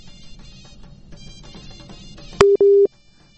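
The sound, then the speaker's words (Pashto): Telephone busy signal after a phone call is cut off: faint line noise, then two loud, steady mid-pitched beeps in quick succession. “تاسو ټلیفون کټ شو نو موږ مجبوري بل ملګری ته نوبات ورکو”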